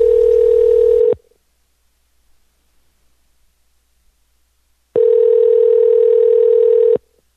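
A telephone tone sounds on an outgoing call: a loud, steady electronic tone lasts about a second, then silence, then the same tone returns for about two seconds.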